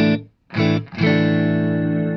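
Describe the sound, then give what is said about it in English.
Distorted electric guitar through an echo effect set with an expression pedal, a loud sustained chord that drops away, then two more struck chords, the last ringing on with a rich, buzzy harmonic tail. “but I use the expression pedal only for the echo”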